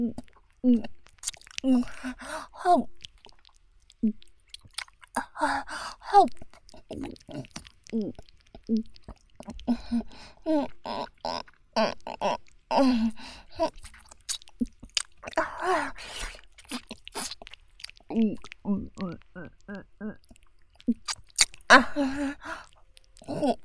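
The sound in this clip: Chewing and eating sounds: many irregular wet smacks, soft squishes and small crunches from biting and mastication, repeated steadily throughout at moderate loudness.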